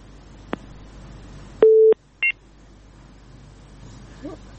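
Telephone tones after a disconnected call: a faint click, then one longer steady beep followed by a shorter, higher beep, over quiet background hiss.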